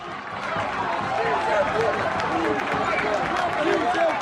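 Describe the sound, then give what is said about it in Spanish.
Football crowd of about 1,500 chanting in rhythm at the Hermanos Llana stadium after Astur scored against Valladolid in a cup match; massed voices rise and fall in repeated, steady phrases over constant loud crowd noise. “Ese sí se puede de la gente, es cuando marcó Robbie Toral para el Astur el 1-2 y ahí hubo un momento en el que la gente se vino arriba.”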